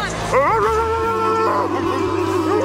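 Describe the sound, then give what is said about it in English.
People imitate a dog barking and howling in a post-game celebration after a Western Conference playoff win, with several voices giving rising, yelping howls together over a low background hum. “You taught me how to bark. You said you can't go in lightly. You can't tiptoe in. So you guys want to give a bark to end this interview or what?”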